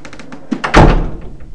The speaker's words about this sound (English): then it closes. So you can't, if you want the loo in the middle of the night, you can't go in there quietly, because the door will bang